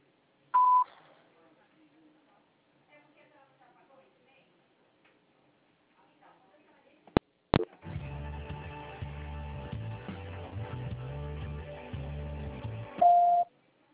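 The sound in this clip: A voicemail system sounds short electronic beep tones, one at the start and another near the end. A faint murmur follows the first beep, then a louder stretch of patterned phone-line sound leads to the final tone.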